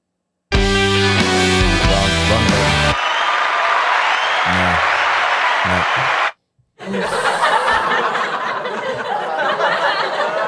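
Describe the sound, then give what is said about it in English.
Live TV studio audience laughter and applause following a short musical sting, a rolling burst of chuckles and clapping, then after a moment of silence a second swell of cheering and clapping. “You're not going to get this response from our live studio audience.”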